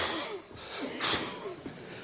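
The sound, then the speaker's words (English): A man's voice imitates a breathless old man struggling for air: a run of wheezy, rasping gasps and snorts, with one louder breathy gasp in the middle and several shorter catches of breath around it. “this old fella passes, happened to be a friend of mine, and he passes on a simmer. And he can hardly get a breath. And he's going,”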